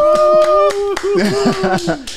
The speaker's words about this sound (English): Chris, can we get one of those like clapping little things?